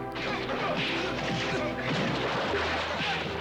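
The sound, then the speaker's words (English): A heavy punch in the Action Force movie sends a figure flying through several others, heard as a dense, loud barrage of crashing, thwacking impacts that continues throughout. “Oh, that was one serious punch.”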